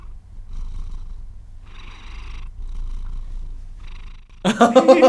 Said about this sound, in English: I don't know if you heard him, if you could hear him purring, but right into my headphones, it's like sweet, sweet ASMR music.